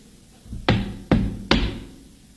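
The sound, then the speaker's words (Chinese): Three sharp, loud knocks on a door, evenly spaced about half a second apart, each a heavy thump with a brief ringing decay, after a faint shuffle. “待我上前叩我门”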